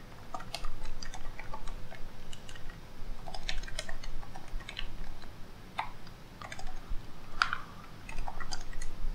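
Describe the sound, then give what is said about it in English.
Typing on a computer keyboard: a steady stream of many quick, irregular key clicks, light and crisp, with no voices. “I'm going to type this in chat.”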